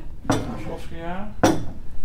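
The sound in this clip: A glass bottle from the early 1960s is handled, giving two sharp clinks more than a second apart, with a brief voice between them.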